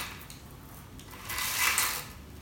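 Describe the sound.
A blackout curtain in a living room slides closed along its track. A soft rustling swish swells to a peak partway through, then settles back to a steady hiss. No voices are heard.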